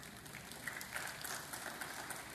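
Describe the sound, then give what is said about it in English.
A faint smattering of audience applause during a sermon, a soft, even patter of scattered claps that holds steady throughout, with no voices. “Thank you for that smattering of applause.”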